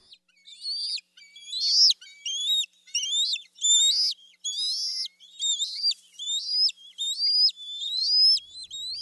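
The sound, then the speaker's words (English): Juvenile eagles begging for food give many repeated high, thin chirping calls, each with an upward inflection, delivered in a steady, insistent series with nothing else heard. “We do have some sounds here of eagles, and here are some juveniles begging for food.”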